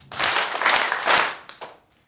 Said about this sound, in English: Those are a lot of hands clapping